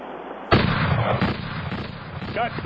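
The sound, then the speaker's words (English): A gunshot rings out during target practice: one loud, sharp blast followed by a long, rumbling decay that fills the rest of the moment. “Okay, I heard more than one shot.”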